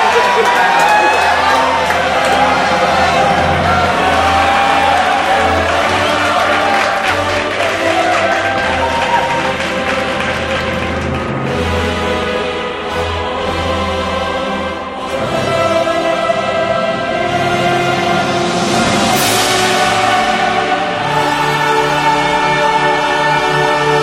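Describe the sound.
A crowd applauds and cheers in a continuous loud roar of clapping and shouting voices that holds steady throughout, dipping briefly near the middle before swelling again.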